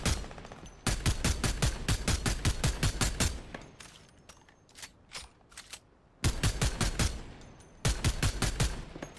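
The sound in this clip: Rapid automatic gunfire rattles in a video game. Several long bursts of fast shots come first, then a quieter stretch of sparse single shots, then more dense bursts to close.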